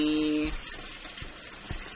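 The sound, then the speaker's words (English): Water runs from a tap and fills a tub, a steady, broad hiss of flowing water that continues evenly, with no talk over it. “We took a little break there while the water was filling”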